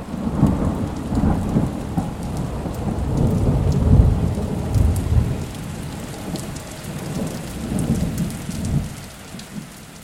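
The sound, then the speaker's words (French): Thunder and rain fall on a wooden plank roof during a storm: low rolling rumbles swell through the first half, strongest around the middle, over steady dense pattering that eases slightly toward the end. “Anthony constata par l'ouverture que la pénombre n'était pas le seul fait de l'orage. Le soir tombait à mesure que les nuages obscurcissaient davantage le ciel. Des gouttes de plus en plus nombreuses venaient s'écraser sur le toit de planches juste au-dessus d'eux,”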